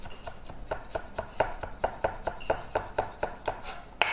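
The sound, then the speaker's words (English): A knife chops two stalks of spring onions, or scallions, into thin slices on a board, with many crisp, evenly spaced taps in a steady rhythm. “And I'm using just 2 stalks of spring onions or scallions here. Okay. And maybe I'll use some of the ends as well. This one, I would cut it like thin.”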